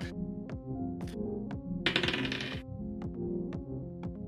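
Dice rattling as they are rolled for a deception roll in a tabletop role-playing game: a short bright clatter over a steady tonal background marked by regular, evenly spaced ticks.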